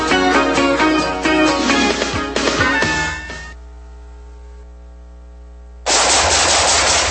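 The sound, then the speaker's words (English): Rapid automatic gunfire rattles in loud, dense bursts, breaks off into a lingering ringing tone, then resumes abruptly for a final stretch. “Nice shooting.”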